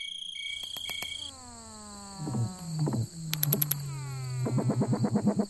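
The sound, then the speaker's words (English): Thousands of tiny treehoppers in a rural Virginia backyard form a chorus of low, droning calls that slide downward in pitch, broken by bursts of rapid pulsing and high ticking, ending in a fast throbbing pulse train. “That is a chorus of thousands of tiny insects called tree hoppers.”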